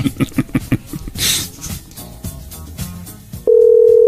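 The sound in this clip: A telephone rings in an unusual way. A quick series of short, loud pulses is followed by a hissy burst and scattered clicks, then a loud, steady, unbroken tone holds to the end.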